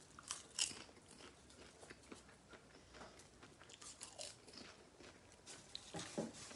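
Faint crisp crunches of someone biting into and chewing an extra-butter-flavored snack, with many small irregular crackles and a few sharper bites spread throughout.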